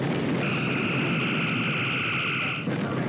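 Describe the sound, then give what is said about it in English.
Phasers firing at a target in a starship bridge video game: a sustained, steady high electronic beam tone lasts about two seconds over a thick roaring noise bed, then cuts off abruptly. “Firing phasers.”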